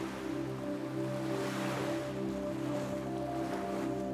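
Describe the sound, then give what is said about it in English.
Ocean waves rush onto the shore in a steady, continuous wash of broad surf noise, with sustained low droning tones holding underneath throughout. “The waves rush up to your ankles, and your feet are being buried in the sand”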